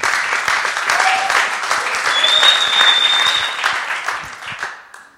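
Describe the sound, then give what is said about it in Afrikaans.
Church audience applauds its pastors and leaders with warm, sustained clapping. A high, piercing whistle cuts through the middle, and the clapping thins out and fades toward the end. “Ons gee vir hulle 'n lekker hande.”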